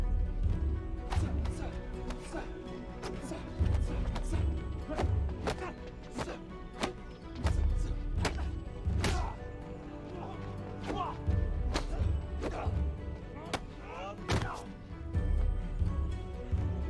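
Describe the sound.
Martial arts strikes landing during sparring: many sharp, percussive smacks and thuds in an irregular rhythm, some hits louder than others, over a low, steady background.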